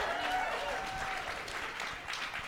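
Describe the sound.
An audience at a live comedy show in Des Moines applauds a rapper as he is brought on. Dense, steady clapping blends with crowd noise and eases slightly toward the end.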